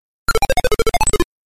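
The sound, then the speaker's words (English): Robotic electronic beeps play as a program's menu loads on an old disk-based home computer. Many short, evenly spaced tones come in a quick run, hopping between higher and lower pitches, clean and alone. “So what you just heard was the menu. Every time the menu loads, you get that nice little robotic sound.”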